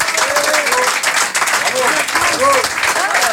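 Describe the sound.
An audience applauds a music group that represented France at a European challenge: dense, continuous clapping fills the whole stretch while a voice talks over it.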